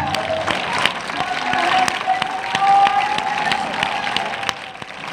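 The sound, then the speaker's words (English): A church audience claps and cheers in a dense, steady burst of applause that runs the whole length, with a faint sustained tone under the noise. “clap your hands. As our pastor teaches us that we get caught from that sign of victory. Come on, make some noise.”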